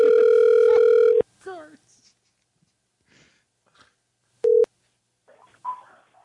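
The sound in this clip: Ringback tone on an outgoing telephone call: a long, steady electronic tone, then faint voice-like sounds, and after a gap a short second tone, followed by quiet speech.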